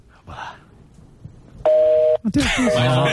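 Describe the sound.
An international phone call rings once: a single steady electronic ring tone lasting about half a second, with people talking before it and a voice over the end.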